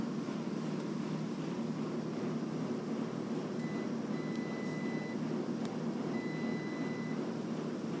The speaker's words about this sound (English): I know the other washers are kind of drowning it out.